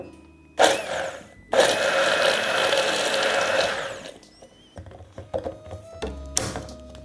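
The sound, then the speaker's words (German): A stick blender mixing an herb and oil mixture: a short whirring burst, then a longer steady buzzing run of the motor, followed by a few loose clunks and knocks after it stops. “Kann passieren beim Mixstab, dass da ein bisschen was hängen bleibt, das kann man rausputzen. Dann noch einmal mixen, weil es so lange Fäden hat.”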